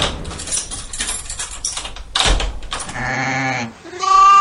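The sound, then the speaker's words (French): Sheep bleating, heard as a guess-the-animal sound: after a couple of seconds of noisy rustling, two loud, drawn-out wavering bleats follow one another near the end, with no talking. “Alors ça, c'est pas vraiment le bruit des éléphants, c'est le bruit des moutons.”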